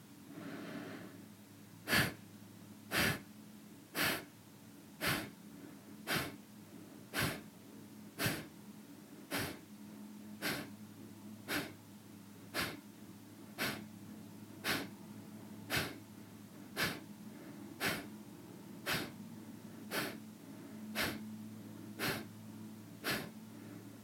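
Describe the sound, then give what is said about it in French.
Forceful breaths in and out through the nose during a kriya breathing exercise, many short puffs evenly spaced about one second apart in a steady rhythm, with no talk. “Prenez une grande inspiration. Une grande expiration toujours uniquement par le nez et vous inspirez aux trois quarts pleins.”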